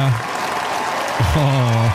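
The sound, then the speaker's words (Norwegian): A large crowd at Slottsplassen outside the royal palace gives the royal family warm applause: a steady wash of clapping that carries underneath a person speaking for much of the stretch. “og ikke minst dronning Sonja til slutt, som fikk seg en ekstra applaus, varm applaus fra slottet”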